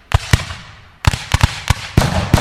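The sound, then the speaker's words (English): Musket fire at a battle reenactment on a city street: a ragged series of many sharp, loud bangs with uneven gaps, some shots in quick clusters, over a low rumbling background. “If you hear muskets going off, it is not your imagination.”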